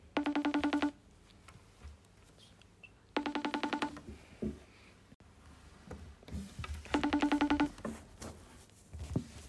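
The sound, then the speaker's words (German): A telephone call rings as three short, buzzy ring bursts with pauses between them. The rings are faint, with soft background noise. “Wir werden sie jetzt mal live anrufen und hoffen natürlich, dass sie rangeht.”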